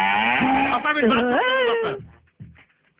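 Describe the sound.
A cow at a home moos in one loud, drawn-out call of about two seconds with a wavering pitch, then falls quiet except for a brief faint sound.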